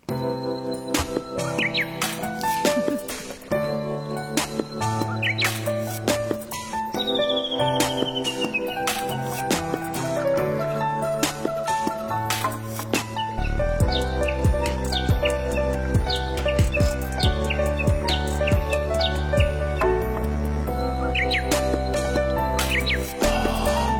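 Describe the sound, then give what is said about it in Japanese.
Japanese bush warbler practising its spring song, heard as bright chirps and a falling whistle woven into a busy musical jingle, with a deeper bass line entering about halfway through. “春らしくさえずりの練習をしているウグイスと一緒にジングルを作っていました。”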